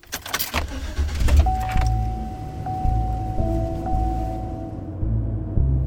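A car setting off through a residential neighborhood, its engine giving a steady low rumble and a faint thin whine, with a few sharp clicks and rattles at the start.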